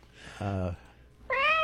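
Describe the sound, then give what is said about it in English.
A cat meows twice as a sound effect. The two loud, short meows come about half a second apart, and the second is higher-pitched. “Just the cat.”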